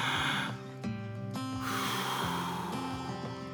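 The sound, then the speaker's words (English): Deep breathing during a guided meditation: a breathy rush at the start, then a long, steady, airy exhale from mid-clip to the end, over soft sustained background music. “Let's take a couple of deep breaths.”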